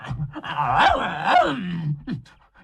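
A dog growls in a long, rough, wavering rumble, its tone rising and falling like a moaning whine. It swells twice and ends in a short, sharper burst, loud with no voices.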